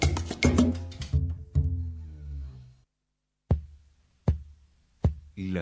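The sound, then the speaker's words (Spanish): Heartbeat sound effect: after a tonal, musical opening that dies away into silence, several deep, evenly spaced thumps follow in a steady pulse. “Latido americano. Latiendo al ritmo de América Latina.”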